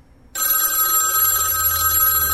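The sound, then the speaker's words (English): A telephone bell rings, starting abruptly after a short silence and then holding as one loud, steady, unbroken ring to the end. “Dear me, the phone.”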